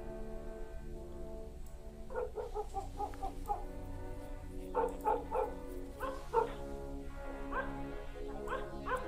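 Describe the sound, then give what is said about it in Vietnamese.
A black dog barking in a run of short yips and barks, fairly faint, some clustered in quick bursts, over a low steady background. “Con chó mực nằm bên cạnh bỗng chồm lên, phóng ra cửa gầm gừ rồi sủa vang mấy tiếng, làm cho bà phải ngẩng lên.”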